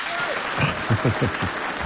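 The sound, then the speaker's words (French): Applause from a studio audience during a live charity telethon, a brief, dense burst of clapping with voices calling out and cheering over it. “pour retrouver Serge Van Alloen sous vos applaudissements”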